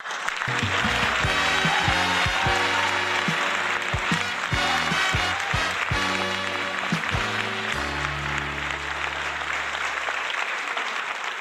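Audience applause greets a guest walking onto a chat-show stage, a thick, continuous wash of clapping that holds at full strength throughout, with sustained tonal music playing underneath.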